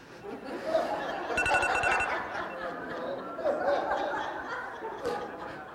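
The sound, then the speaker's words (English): An alarm goes off in a short burst of rapid, pulsing electronic beeps lasting under a second, set against ongoing chatter and laughter. “I set that alarm on purpose. So that I could hear it, and I wasn't thinking you could hear it,”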